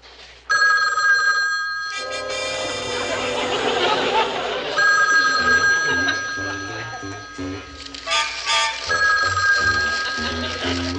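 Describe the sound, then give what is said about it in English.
Telephone bells ringing in an office: a loud, continuous electric ring that starts abruptly and carries on throughout, with people talking over it. “I'll see that the phones are shut off.”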